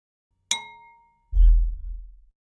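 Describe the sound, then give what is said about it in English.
A cereal bowl is struck once, giving a bright ringing clang that decays over about a second, followed by a deep, loud low bass thud that lingers for roughly another second. “that's just from hitting a bowl that was, I think it was like I had a cereal bowl next to me”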